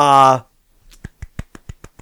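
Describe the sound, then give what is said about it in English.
A golf clap, quiet and polite: a voice speaks briefly, then a short run of soft, evenly spaced claps, sparse and faint, from what sounds like one or two pairs of hands. “golf clap for polite interruption. That's that's new.”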